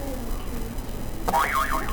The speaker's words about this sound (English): Alright, you can press another buzzer.